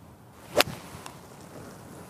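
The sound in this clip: A golf club swung at a ball on the course gives one sharp, brief whoosh-and-strike near the start, then fades into faint outdoor background noise.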